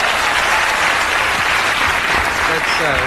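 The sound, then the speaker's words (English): Dense applause from a television studio audience fills the whole clip, loud and unbroken, with a voice starting faintly beneath it near the end. “You did that just to get applause?”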